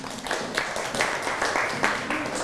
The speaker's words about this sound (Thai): อ่ะปรบมือให้กับเพื่อนครับ